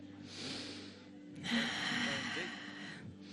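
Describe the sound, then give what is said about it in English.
Deep breathing from a person who had been unable to breathe through a lung and can now breathe freely: two long, faint, airy breaths with a soft rasp. “So you want to show us how you can breathe deeply?”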